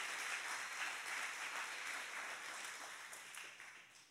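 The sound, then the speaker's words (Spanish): Applause rises from an audience during a bilingual church worship service, a soft, continuous patter of many hands that holds steady, then gradually tapers off toward the end. “Un fuerte aplauso al Señor.”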